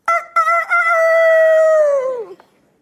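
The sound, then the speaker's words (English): A human voice imitates a rooster crowing: two short clipped bursts, then one long, loud, sustained crow that holds steady and drops in pitch as it fades out at the end. “that's my best one I can do. You heard the rooster crow”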